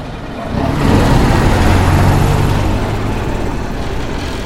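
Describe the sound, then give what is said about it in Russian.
A patrol car drives along a street, its engine a low, rumbling hum that swells in after a quiet moment, then holds steady before easing slightly as it continues. “По улице в их сторону движется патрульный автомобиль.”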